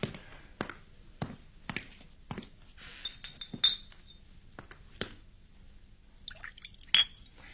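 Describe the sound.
Glasses clinking in a toast, with wine poured: several sharp glassy clinks at irregular intervals, some with faint liquid and cutlery-like rattles between them, the loudest near the end.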